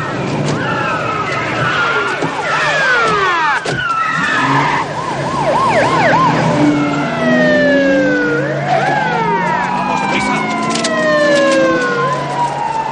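Several police car sirens wail together as many police cars arrive at a casino entrance in a 1990 action film. The loud, overlapping tones sweep up and down in pitch without pause for the whole stretch.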